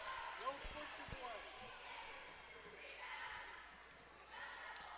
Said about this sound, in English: Marion Adams' first free throw hits the back of the iron and falls in.